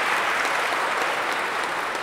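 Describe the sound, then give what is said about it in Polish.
Applause from a crowd at a pilgrimage gathering, steady dense clapping that holds at an even, fairly loud level throughout. “Oklaski dla niego.”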